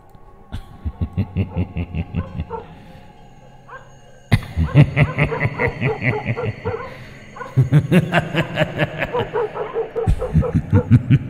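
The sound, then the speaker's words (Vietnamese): Dogs bark at night at the edge of a village, many quick barks in steady rhythmic bursts, with a softer stretch near four seconds before louder barking resumes and carries on to the end. “Ở đầu xóm, tiếng chó cắn ma lại nhấm nhặng vang lên lẫn trong cái tiếng cười ma mị.”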